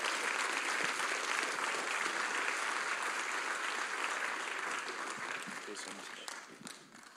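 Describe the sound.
A church audience applauds as a speaker comes up to the platform. The clapping is steady and sustained, then thins and fades toward the end.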